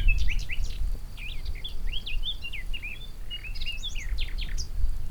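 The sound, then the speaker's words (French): Birds sing outdoors on a mountain ridge, with many quick, high chirps and whistled phrases overlapping in busy bursts above a steady low rumble. “Puis voilà, les oiseaux.”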